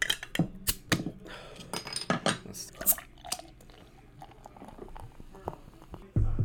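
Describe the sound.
A bottle of pumpkin-flavoured drink is handled and opened, producing many sharp clicks, taps and clatters in an irregular pattern of quiet and louder bursts, ending in a sudden louder burst.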